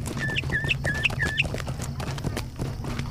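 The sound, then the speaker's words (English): Sparrow chirping in a fantasy video game: a quick run of short, bright, high-pitched chirps repeating in the first second and a half over a steady, low background hum. “I hear a sparrow.”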